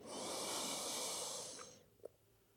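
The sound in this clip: A slow, airy breath during guided meditation: one long, steady stream of breathing noise that holds, then fades away. A faint short click follows in the quiet. No voices.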